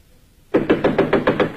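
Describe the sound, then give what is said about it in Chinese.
Knocking on a door in a dramatized story: after a near-silent start, a rapid, even series of firm, hollow knocks continues to the end. “这时传来敲门声，是雅果的妻子艾米莉亚”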